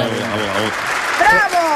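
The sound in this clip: Audience applause at the end of a show, a dense burst of clapping under voices.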